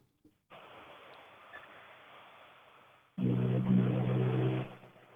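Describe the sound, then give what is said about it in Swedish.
A Toyota Corolla rally car heading into a corner on a rally stage: a low, steady engine drone swells abruptly into a loud, throaty roar, holds briefly, then cuts away. “kanske lite mycket vänsterbroms. Det var en Toyota Corolla på väg in i tekon här.”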